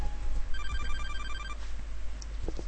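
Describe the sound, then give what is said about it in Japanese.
A mobile phone suddenly rings: a quick run of repeated bright electronic beeps lasts about a second, then stops. A few faint knocks and rustles follow over a low steady hum. “いきなり私の携帯が鳴った。”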